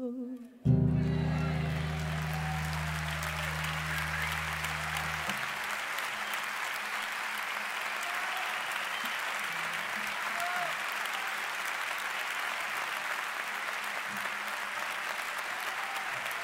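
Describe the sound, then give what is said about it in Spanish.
Applause from a large crowd: dense, continuous clapping that starts abruptly and holds at a steady level to the end, with low sustained tones underneath for the first few seconds. “Ese aplauso es para Enrique y para Estrella.”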